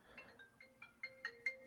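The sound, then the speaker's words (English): A phone rings with an incoming call, a rapid, regular series of short electronic tones that starts faint and grows steadily louder. “I'm getting a phone call. I don't know what this is about, but I am going to try and answer it here.”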